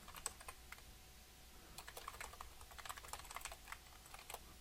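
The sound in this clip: Computer keyboard typing as a review is entered into a web application's product page: many quick, irregular key clicks, steady and moderately loud, with no voices.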